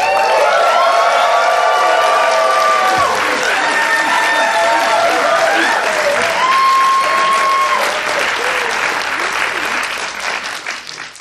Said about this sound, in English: It's awesome. I got a standing ovation from my wife there. That was great.